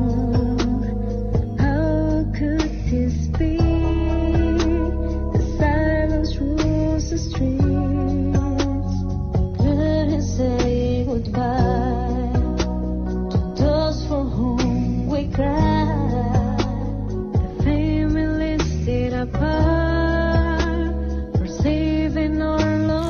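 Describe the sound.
A pop ballad cover performed by musicians in China in support of families in Wuhan during the first coronavirus lockdown: sung vocal melody over steady chords and a sustained accompaniment, playing continuously throughout.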